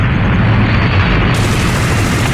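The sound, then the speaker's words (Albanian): Loud, sustained roar of a nearby bomb explosion from an air strike: a dense rumble with heavy low end that holds steady throughout, without separate distinct blasts. “Pak metra ajo bomba do të kishtë rënë bine! Po, jemi me fat.”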